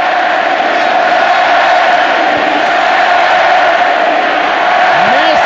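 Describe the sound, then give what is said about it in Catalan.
A huge stadium crowd of about 90,000 at Camp Nou during a football match against Juventus, a dense, steady roar of many voices that holds at an even loudness throughout. “van cridar Messi, Messi, escoltin, escoltin!”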